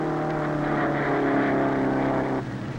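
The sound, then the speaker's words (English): An old jalopy's engine roars at a hot rod race, a steady, loud, buzzing drone rich in harmonics that holds without pause, then drops off slightly near the end. “Here's Mel and the jalopy. The flagger thinks Thera better get out. There they go.”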